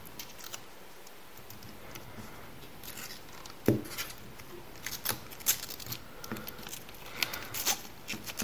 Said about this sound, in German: Und jetzt hier, das ist so ein USB-Adapter. Warte. Den Teil.